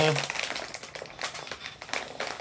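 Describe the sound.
Crinkly rustling of a plastic chip bag being pulled open carefully, with irregular crackling bursts throughout, heard under people talking.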